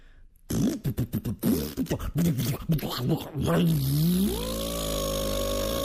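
A motor started after a repair sputters through a run of short, uneven bursts, then catches with a rising tone and settles into a loud, steady drone.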